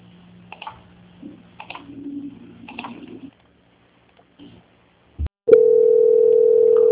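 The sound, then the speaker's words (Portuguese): Steady telephone line tone plays while a bank call is put on hold and transferred to quality control. A few faint muffled sounds and a short click come first, then a loud, unbroken, even-pitched tone holds to the end. “peço que aguarde linha, que eu vou transferir o contato para o controle de qualidade, que dará continuidade à sua contratação”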